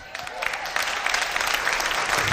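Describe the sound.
Applause from an audience at a preaching event: many hands clapping in a dense, even patter that builds slightly over two seconds.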